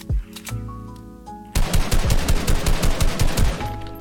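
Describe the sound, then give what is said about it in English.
Rapid automatic gunfire from the video game Fortnite, patch update 12.61: loud, dense bursts fire in quick succession for several seconds after a brief opening shot, over a steady tonal game background. “Guns sound a little bit different, maybe?”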